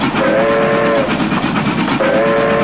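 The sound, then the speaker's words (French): A train departs from Paris-Montparnasse station in 1949, its whistle sounding in two steady blasts over a loud, continuous rolling rumble with a dull, muffled tone. “Nous sommes le 6 janvier 1949 à la gare de Paris-Montparnasse. Un événement aujourd'hui presque oublié se prépare. Le départ du train de la reconnaissance française”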